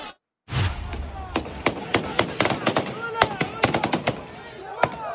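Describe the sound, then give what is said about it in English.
Gunshots ring out as police in Pakistan fire warning shots at protesters during unrest under a state of emergency in Khyber Pakhtunkhwa. Many sharp, loud cracks come in an irregular string over continuous background noise. “Police in Pakistan firing warning shots at protesters a day after a state of emergency was declared in northwestern Khyber Pakhtunkhwa.”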